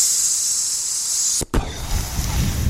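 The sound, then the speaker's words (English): A voice imitates steam hissing from a broken-down car engine: a sustained, bright, breathy hiss that cuts off briefly, then gives way to a rougher, noisier stretch. “steam's coming out of the engine and the bonnet blows up, you know what I mean? And you just hear this big”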